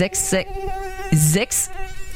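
A mosquito's thin, buzzing whine drones steadily through the whole stretch, with a few loud hissing bursts cutting across it.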